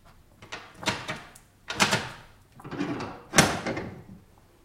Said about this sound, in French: Là, c'est sans doute une précaution inutile, mais Sigognac m'a bien recommandé de tirer le verrou.